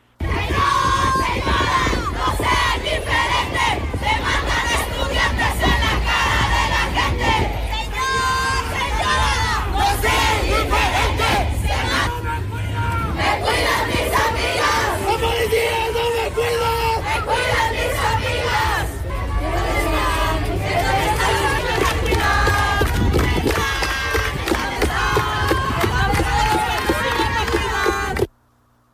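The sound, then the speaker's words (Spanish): Students on a protest march chant slogans demanding justice for murdered female students, walking from their university to the city's main square. Many voices shout loud, continuous, rhythmic chants amid crowd noise throughout. “Ahí escuchamos parte de estos reclamos, sí, de estas consignas que fueron pues durante toda la marcha, esos 10 kilómetros que se recorrieron desde la UAM hasta el Zócalo capitalino.”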